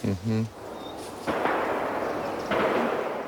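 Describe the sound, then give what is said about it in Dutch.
Gunfire in a border area: a brief voice opens, then a few sharp, noisy reports burst out of a steady background hiss, spaced about a second apart. “Ja, veel geweerschoten hoort u.”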